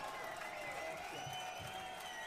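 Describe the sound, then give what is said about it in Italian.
An audience at an antifascist music festival in Milan claps and cheers for the organisers, a steady wash of applause with voices calling out over it. “Fate un cazzo di applauso al collettivo antifascista di Milano Sud e tutto lo staff di Partigiani in ogni quartiere.”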